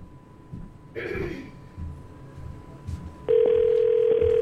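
Steady telephone ringing on an unanswered call to a professional basketball team's office; loud and continuous from partway through to the end, following quieter background noise.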